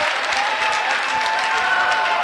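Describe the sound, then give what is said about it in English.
A crowd at a women's basketball game claps for a hustle play after a steal, steady dense applause with some crowd noise mixed in, holding an even level throughout. “What a great hustle play by Rainey. Tried to hold on, but lost her balance down on the baseline. It gets a nice hand from the police crowd.”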